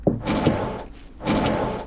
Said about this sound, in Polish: Winda. Że jedziemy windą w dół.